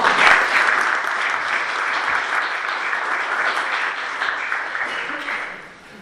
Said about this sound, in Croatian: i meni se čini da je to potez koji zaslužuje aplauz.